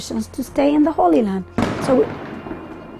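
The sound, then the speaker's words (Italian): A single sharp bang from Israeli army tear gas or stun grenade fire near a refugee camp cuts in after talking and decays into a fading rumble, with a voice heard again over the tail. “Sentite cosa succede. Abbiamo appena sentito il rumore dei gas lacrimogeni e delle bombe sonore. Provengono dalla torre dell'esercito israeliano qui, per disperdere i ragazzini del campo profughi,”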